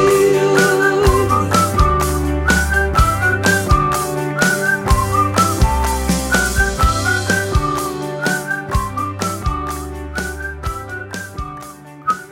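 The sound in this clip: A bright whistled melody runs through a pop song, carried over a steady, punchy bass and drum beat that stays loud throughout.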